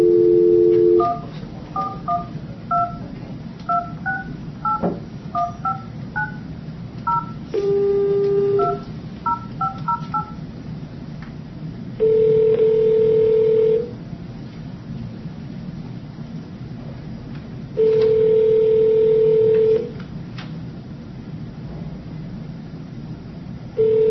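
Telephone keypad dialing tones: many rapid, short beeps in quick bursts, then longer steady tones in separate blocks, loud and alone.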